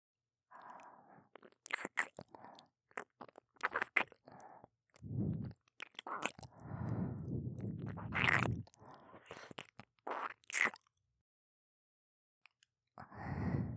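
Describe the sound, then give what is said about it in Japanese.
Ear-licking ASMR mouth sounds: many soft, wet bursts of licking, smacking and slurping with breathy noise, irregular in rhythm and quiet overall, broken by a near-silent pause before a final burst. “では、耳舐めの方、させていただきますね。”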